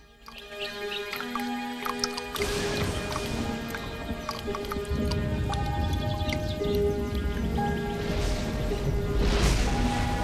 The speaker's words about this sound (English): As she does so, drops of water fall into the water pail from above. A thunderstorm starts up.